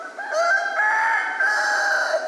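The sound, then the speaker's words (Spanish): A rooster crows in the morning in Puerto Rico: a long, loud, strained call with a rich harmonic tone, drawn out over two seconds with a brief break midway, heard alone without voices. “En Puerto Rico, recuerdo así que me vienen a la mente gallinas cantando por la mañana”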